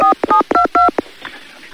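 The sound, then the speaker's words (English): Telephone keypad dialing tones: several short beeps in quick succession, loud and clear, followed by a near-silent pause. “Actually, I can't decide whether to phone the rest of the number. Go on. Go for it.”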